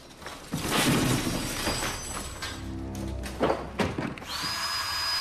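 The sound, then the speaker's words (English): An electric drill is test-run among emptied tools, giving a few bursts of whirring motor noise mixed with knocks and clattering, then a steady high whine at the end. “He tests an electric drill, then empties out a small bag of screws, picks a few up and heads off.”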